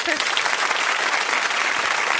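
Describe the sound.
Applause for a player during a quiz game among friends: a brisk, continuous clatter of clapping that stays level throughout, with a brief voice at the very start.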